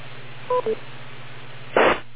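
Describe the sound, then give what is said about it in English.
Two short electronic tones on a phone line sound close together, followed by a brief burst of noise, all over a low, steady hum. “Wait for the beep.”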